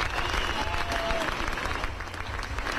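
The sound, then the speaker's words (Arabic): Sustained applause from an audience for a prize winner, dense and steady clapping that holds at an even level from start to end, with no clear voices above it. “معناتها تصفيق جميل.”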